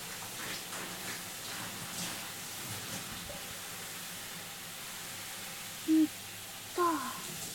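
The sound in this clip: Water runs over hair to wet it before shampooing, giving a soft, steady hiss that continues without a break. Two short tonal blips come near the end.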